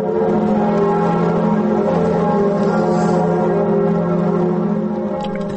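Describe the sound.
Church bells of Notre-Dame cathedral in Paris ringing at noon for a mourning tribute, a dense, sustained wash of overlapping bell tones that holds steady throughout with no voices.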